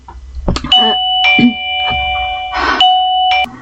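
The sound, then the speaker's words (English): Electronic doorbell ding-dong: a few loud, sustained two-tone chimes sounding clearly, with faint knocking noises between them. “If you hear that little ding-dong noise in the background, I assure you it's not my head going side to side making noises.”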